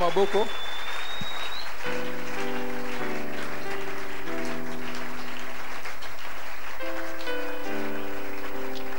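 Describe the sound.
A church audience applauds to acclaim the Lord, a steady wash of clapping that lasts throughout, while sustained keyboard chords begin under it and change several times.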